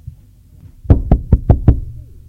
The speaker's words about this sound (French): On a frappé à la porte.